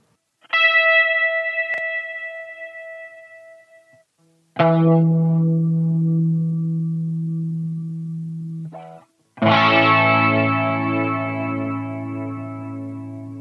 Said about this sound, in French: la cabine Leslie, qu'on peut faire tourner lentement,